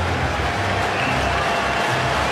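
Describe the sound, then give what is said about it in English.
A baseball crowd stands and cheers during the top of the seventh inning of a Cubs game, making a continuous, loud, unbroken roar with a heavy low rumble and no single standout shout. “And now the crowd on their feet trying to coax Gausman through this top of the seventh inning.”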